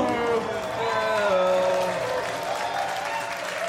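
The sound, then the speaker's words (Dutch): Audience applause, a dense and continuous burst of clapping mixed with crowd voices and cheering that rise over it, staying loud and fairly even before easing slightly toward the end. “Jullie kunnen het beter doen. Dus mag ik iets meer applaus.”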